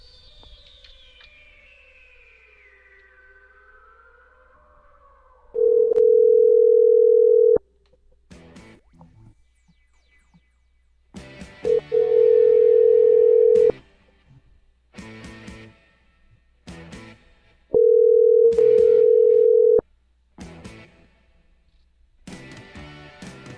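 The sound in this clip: A telephone tone sounds while a call is being dialed, in three steady, mid-pitched bursts of about two seconds each, with softer, irregular sounds in the gaps between them.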